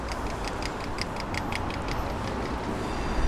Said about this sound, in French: Ou le tram qui, quand on est à l'intérieur, fait vraiment le bruit d'une sorte de fusée qui va décoller.